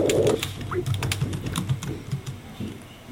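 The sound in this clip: Typing out text on a computer keyboard: rapid, uneven key clicks in a steady stream, with a voice murmuring faintly underneath.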